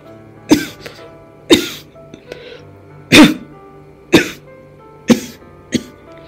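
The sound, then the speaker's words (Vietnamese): Harsh, wet coughing from a dying man lying on a rickety wooden bed, about six loud bursts spaced unevenly, with a few fainter throat sounds between them and no speech. “Cái người sắp chết kia đang nằm trên giường ho liên tiếp.”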